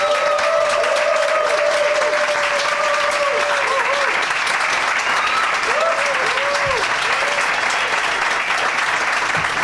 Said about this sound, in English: they're going to come out to thunderous applause, and there might be three of them. But I'm gonna only say the names of the ones that I know for sure here. Please welcome to the stage Ramon Rivas II and Keith Powell, everybody.